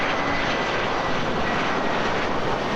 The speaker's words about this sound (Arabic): طوابير من المسافرين وطائرات تقلع وتهبط في تتابع لا يتوقف